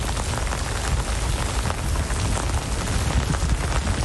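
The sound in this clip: Heavy rain pours onto a city square in Istanbul during a downpour, a loud, dense and unbroken hiss of drops striking the ground with a steady low rumble beneath it. No voices are heard.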